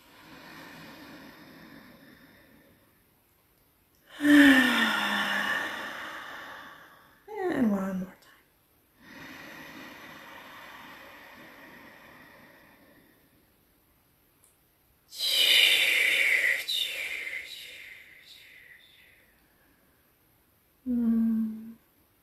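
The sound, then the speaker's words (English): Slow, deep breaths drawn in during a breathing exercise, filling belly, chest and head with air: a few long, loud, airy inhales separated by quiet gaps, with shorter breathy sounds between them. “So it's like belly, chest, and head filling up with air in the inhale, with a wave of air.”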